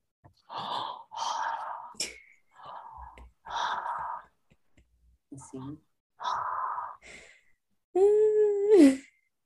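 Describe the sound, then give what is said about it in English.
A voice imitates the heavy breathing of a masked horror-movie killer: a series of loud, breathy, hissing exhales in uneven bursts with short pauses, ending in a strained, voiced groan. “And you just hear him breathing the entire time. I'm going to start breathing. It's the boogeyman, ho. I'm going to start breathing all the time.”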